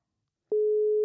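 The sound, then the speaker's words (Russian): Telephone call tone after dialing: silence, then a single steady, mid-pitched tone begins abruptly and holds unbroken to the end. “Ну что, я набираю, да? Да-да. Так, вызов пошел.”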